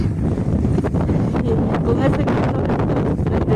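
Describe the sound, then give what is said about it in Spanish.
Strong wind gusting over a spreading wildfire: a loud, continuous rushing roar with buffeting bursts that keep the level high from start to end. “Cómo sopla el viento, y eso a favor justamente de estas lenguas de candela que se extiende.”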